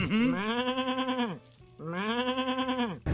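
A sheep bleats twice in long, loud, wavering cries separated by a short gap. A brief burst of noise follows at the very end.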